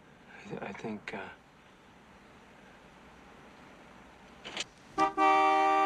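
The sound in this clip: A car horn blares, held down by a driver slumped on the steering wheel, a steady sustained honk in the last second after brief voices and quiet road noise.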